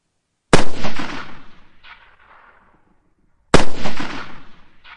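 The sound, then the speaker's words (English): Two loud Mauser rifle shots from entrenched riflemen on a Boer War hilltop battlefield at sunrise, each a sharp crack trailing into a long rumbling decay, about three seconds apart. “see an incredible target and raise their Mauser rifles to their shoulders”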